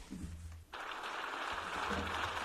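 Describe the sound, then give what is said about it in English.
A standing ovation in the European Parliament for Zelensky: sustained applause that breaks in after a moment and holds steady, with a low hum beneath. “And the European Union Parliament stood up and cheered. Standing ovation for Vladimir Zelensky.”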